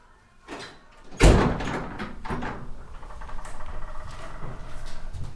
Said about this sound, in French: Sors ! Et ferme la porte, merci.